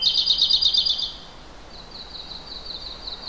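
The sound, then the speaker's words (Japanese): Birds chirp in the early morning among trees at sunrise. A rapid burst of high trilling chirps lasts about a second, then softer repeated high chirps continue. No voices are heard. “鳥はもう朝早くからずっとおしゃべり。”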